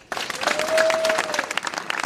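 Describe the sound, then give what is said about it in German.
A crowd of about 250 people applauds at a protest rally in front of a town hall. Dense, continuous clapping starts abruptly and holds steady throughout, with no speech over it. “Vor dem Rathaus in Wutach wird geklatscht und gejubelt.”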